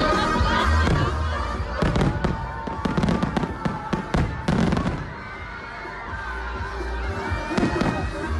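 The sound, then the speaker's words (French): Fireworks explode at the Tomorrowland festival in a dense run of loud booming bursts and crackling pops, with the bursts bunching into rapid clusters before a brief lull and a final volley. “le feu d'artifice dure vraiment genre un quart d'heure, 20 minutes. Et c'est un quart d'heure, vingt minutes, mais de feu absolu.”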